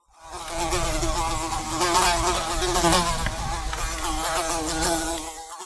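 A housefly buzzing loudly and continuously for about five seconds, its whining drone wavering slightly in pitch as it darts about, heard alone with no voices.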